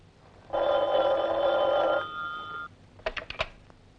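A telephone rings in one long, bright trilling burst that tails off. A few sharp clicks follow.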